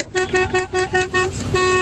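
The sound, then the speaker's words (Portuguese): Repeated blasts from a horn or vuvuzela cheering on Spain: a rapid run of short, evenly spaced toots on one steady mid pitch, loud and with no voices. “a sua buzina, a sua vuvunzela, sei lá”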